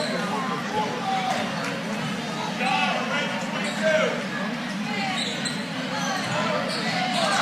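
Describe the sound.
A basketball is dribbled at half court late in a game, with repeated bounces on the court running beneath crowd noise and voices throughout.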